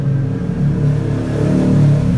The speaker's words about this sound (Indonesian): ada BMW lagi bos ada BMW lagi